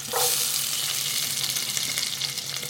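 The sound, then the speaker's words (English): Buffalo meat and offal sizzling in a hot pot with spice, garlic and ginger, a dense, steady crackling fry with a sharp burst at the start, then continuous spitting and hissing throughout, with no voices. “Back in Patole's kitchen, he heats up a pot, adds spice, garlic, ginger, pops in the meat in the offal.”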